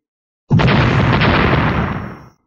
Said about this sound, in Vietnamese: Một trận thanh âm nổ đùng đùng kịch liệt không ngừng từ chỗ va chạm cuồn cuộn lan ra